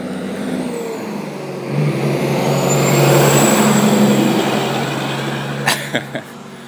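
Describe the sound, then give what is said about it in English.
A big truck passes on the road beside a runner, its broad rumbling roar swelling to a peak midway and then fading, with a few short clicks near the end. “Here comes a big truck. Let's get off the road, buddy.”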